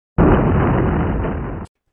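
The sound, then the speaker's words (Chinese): A brick wall inside a room collapsing onto a bed, heard as one loud, sustained crashing roar lasting about a second and a half, starting abruptly and cutting off sharply, with no voices. “突然间房里边嗰埲砖墙冧咗落嚟啊！”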